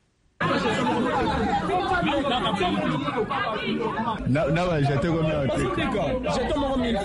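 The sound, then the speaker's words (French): Crowd commotion of students at an enrolment centre, with many overlapping voices shouting and chattering loudly and continuously after a brief moment of quiet at the start. “Ces bruits ne proviennent pas du marché Gambela, c'est l'ambiance qui a régné ce dimanche au centre d'enrôlement à Listandolo. Les étudiants ont semé les désordres parce qu'ils voulaient s'enrôler en premier.”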